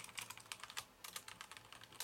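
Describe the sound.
Keystrokes on a computer keyboard as someone types a search, a faint, rapid, uneven patter of many clicks running steadily throughout.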